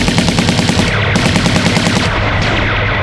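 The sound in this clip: Rapid weapon fire during a battle: a dense, loud, unbroken string of shots that rattles on with no pause across the whole stretch, with no voices over it.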